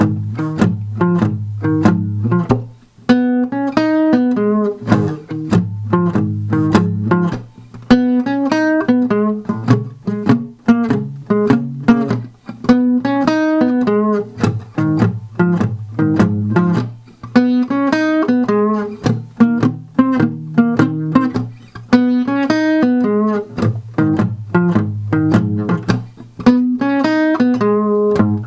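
A guitar lick played in an E shape around the fourth fret: a steady, repeating run of plucked single notes and short phrases, loud and alone for about half a minute.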